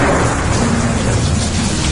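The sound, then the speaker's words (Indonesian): Heavy rain pours down in a dense, steady roar that fills the whole moment evenly, with no break or let-up. “Tapi hujan turun sangat deras.”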